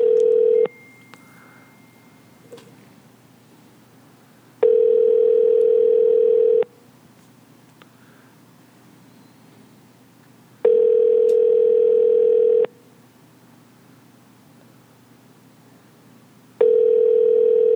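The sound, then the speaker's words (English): Telephone line tone sounding while a call is placed: a steady, mid-pitched electronic tone comes in long even bursts of about two seconds, separated by roughly four seconds of near-quiet, three bursts in all, the last cut short. “I'm calling them.”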